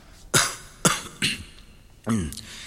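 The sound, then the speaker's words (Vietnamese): Feigned coughing by someone pretending to have a hoarse throat: four short, dry coughs at a moderate level, the last one rougher and more voiced, with no speech. “Minh đã chuẩn bị sẵn, làm bộ ho mấy tiếng và đáp”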